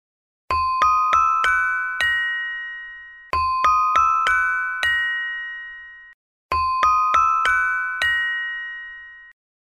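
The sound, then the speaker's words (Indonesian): Saron, a gamelan metallophone, rings out in three identical phrases, each of five bright struck metal notes whose last note rings longest, with silence between the phrases. “Kalau saron, bunyinya seperti ini.”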